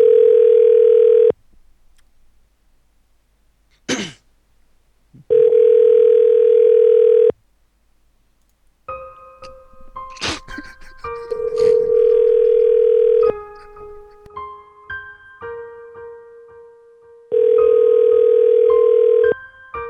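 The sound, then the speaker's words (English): Ringback tone of a telephone call that goes unanswered: four long, steady buzzing tones of about two seconds each, spaced several seconds apart. Brief clicks and faint mixed tones fill the middle gaps. “All right, she's not going to answer. We should leave her a voicemail.”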